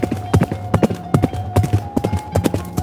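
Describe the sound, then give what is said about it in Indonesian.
Horse hooves galloping, a fast, loud, rhythmic clip-clop of many hoof strikes running through the whole clip over a faint steady hum. “bral saurang miang tumpak kuda ditegarkeun ngajugdug ka lembur nu pangdeukeutna neangan awewe anu keur nyusuan.”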